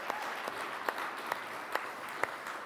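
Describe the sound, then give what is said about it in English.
A church audience applauds to welcome newcomers, a steady wash of clapping with a few louder claps standing out at regular intervals. Nobody speaks. “Church, can we go ahead and put our hands together for those people who are here?”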